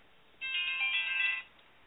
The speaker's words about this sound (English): Is that some special noise? No, that was just, I'm sorry, it was just the phone. I turned it off.